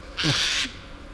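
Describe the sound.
A Eurasian jay's alarm call in a forest: one harsh, raspy screech lasting about half a second, loud and alone against a quiet background.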